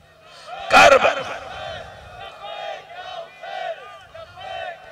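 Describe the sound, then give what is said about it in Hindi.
A crowd chants slogans in loud, overlapping voices, opening with a sharp collective shout near the start and then continuing in uneven surges of chanting. “इधर से नारा लग रहा है”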